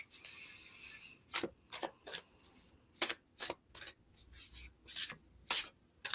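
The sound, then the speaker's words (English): A deck of cards being shuffled and handled, giving many quick, papery swishes and rubs in an irregular rhythm. The sounds are faint, with no talk. “this card, I was trying to stick it back in the deck, but it would not. Okay, so let's get a clarification card for Goddess Wendy”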